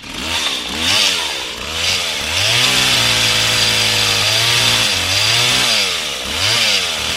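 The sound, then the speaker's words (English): Chainsaw sound played from a computer after a USB cable is plugged in, loud and continuous, revving up and down in pitch repeatedly over several seconds with no talking. “so that little one has the chainsaw for my computer”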